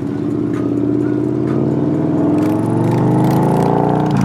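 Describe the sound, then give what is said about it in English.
The engine of an all-white, polished 2014 Victory Cross Country motorcycle drones on a ride, a loud, continuous low rumble with layered tones that rise slightly in pitch toward the end. “I hop on Alan's bike. It's a 2014 Victory Cross Country, all white, polished, curves.”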